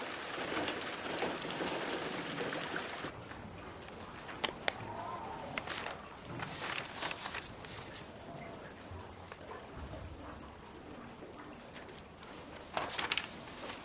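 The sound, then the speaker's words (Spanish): Rain falls on the window of a houseboat in a steady hiss, louder and brighter for the first few seconds, with scattered drop taps throughout. “La lluvia cae sobre el ventanal de la casa flotante.”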